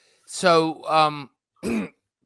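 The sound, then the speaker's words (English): A person coughing and clearing the throat: a few short, throaty voiced bursts, the last one sharper and more abrupt, moderately loud with pauses between them. “I got a cough.”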